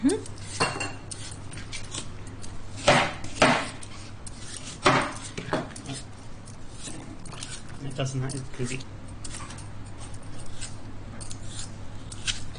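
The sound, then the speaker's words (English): A knife cuts apples into rough bite-sized chunks for an apple crumble, and the pieces are dropped into a dish, giving a few sharp knocks and clinks over a steady low hum. “So just cut them into just roughly into bite-sized chunks and just put them straight into the dish.”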